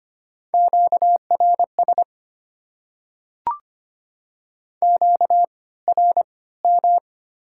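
A telephone busy signal at slow speed: a steady mid-pitched tone pulsing in short clusters of beeps separated by silence, with a single click in the middle gap.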